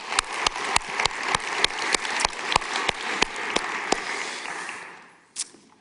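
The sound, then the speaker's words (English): Audience applause in a room: evenly spaced, sharp claps ring out over a dense wash of clapping, which thins and fades near the end before one last isolated clap. “For those of you who are in the room, would you please give a big hand to our online television audience?”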